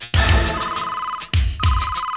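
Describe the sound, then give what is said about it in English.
Loud electronic ringtone of a secret gadget phone, warbling bright tones repeating in bursts, briefly interrupted near the middle before ringing on. “Secret gadget phone.”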